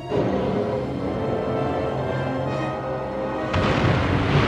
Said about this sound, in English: Now they're kind of flying right into a nuclear test blast.